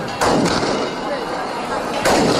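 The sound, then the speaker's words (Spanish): A few sharp shotgun salvos burst out during a religious procession carrying a Marian image through the streets of a village in Almonte, Spain. One bang comes near the start and another near the end, over a steady crowd din of cheers and clapping. “Continúa la Virgen del Rocío vestida de pastora recorriendo las calles de la aldea almonteña entre vivas, palmas y salvas de escopeta.”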